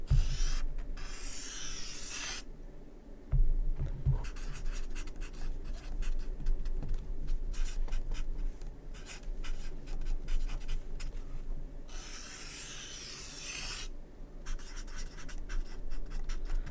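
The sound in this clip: Pens or pencils scratch on paper as participants write and draw lines during a group class session. Faint, continuous rasping strokes run throughout, with a few brief louder scrapes and occasional soft knocks.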